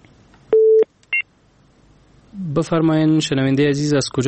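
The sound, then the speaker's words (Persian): Telephone tone heard as a caller's line drops: one steady mid-pitched beep, then a short higher double beep, followed by people talking. “یو بل اوریدونکی هم راخلو، بیا له دوی سره مو فکر کوم اړیکه پرې شوې ده.”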